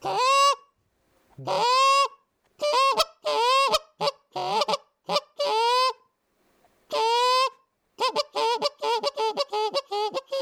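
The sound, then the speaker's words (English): A hand-blown goose call imitates a Canada goose, used by a hunter calling toward geese. It gives loud, high, broken honks and clucks in spaced bursts, ending in a quick rapid run of short notes. “that's my favorite sound for a Canada geese. They just love that.”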